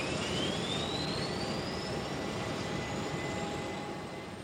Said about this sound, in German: Landung von KLM Cargo, Flug Nummer 744, frühmorgens am 8. Dezember 2013 in Zürich-Kloten.